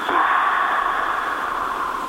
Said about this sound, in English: Take a big inhale through the mouth. Exhale, saying ah.